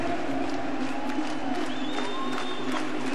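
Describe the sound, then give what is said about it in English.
Crowd clapping and cheering at a techno event forms a dense, steady wash of noise that holds at an even loudness throughout, with faint tonal lines running through it. “Come on, everybody, let me hear your fucking clap.”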